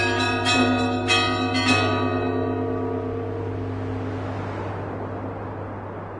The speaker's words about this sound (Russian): В половине третьего часа утра разбудил меня звонок в коридоре гостиницы.